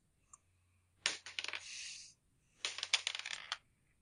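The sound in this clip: Dice rolled during a tabletop role-playing game make two short, faint bursts of rapid clattering clicks, separated by a brief pause.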